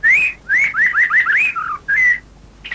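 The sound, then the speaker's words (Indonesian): Birdsong on a morning outdoors: clear, high whistled chirps arrive in a few bright phrases, with a quick run of rising notes in the middle and one more short phrase near the end, loud and alone. “Dan, hei, kau dengar suara burung itu? Merdu sekali, Inang.”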